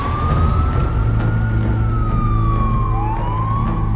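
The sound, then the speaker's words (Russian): A police car's siren sounds as the car pulls up and stops in front of an electric company building. A steady, slowly gliding wail rises a little, then falls, over a constant low engine and traffic rumble. “Бородач наблюдает из машины, как полицейский автомобиль останавливается перед зданием электрокомпании.”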